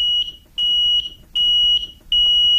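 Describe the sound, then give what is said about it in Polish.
Carbon monoxide detector alarm beeping: four long, high-pitched, steady electronic tones repeat at even intervals with short silent gaps between them, loud and alone with no talk. “by zamiast sygnału czasu w radiu włączać sygnał czujki czadu.”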